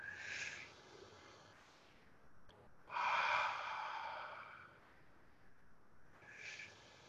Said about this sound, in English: So with me, close your eyes, go within and breathe in. Breathe out. Breathe in.